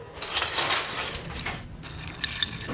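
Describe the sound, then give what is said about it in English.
Ice stirred in a cocktail mixing glass with a touch of crème de banane: a soft, steady rattle of cubes with light clinks, ending in a couple of sharper clicks. “And now we just add ice and stir.”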